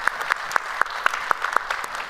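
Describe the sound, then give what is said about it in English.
A church audience applauds to welcome people into a service: dense, continuous clapping with a steady, regular pulse of sharper claps. “So if you would, put your hands together and welcome them into our time of service here today.”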